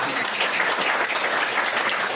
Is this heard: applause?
yes